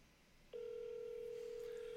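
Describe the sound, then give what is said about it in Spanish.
A telephone call is being dialed: after a brief, near-silent start, a steady, unbroken dial tone comes on at one constant pitch and holds at an even level until the end. “Estamos llamando otra vez al dirigente Jerry Batista.”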